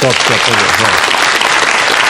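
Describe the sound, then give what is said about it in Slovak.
Loud, dense applause from an audience, continuous clapping at a steady level throughout, with a voice briefly heard under it at the start. “ľudia začali tlieskať ešte predtým, že ste povedali Maďar, tým sa to vysvetľuje.”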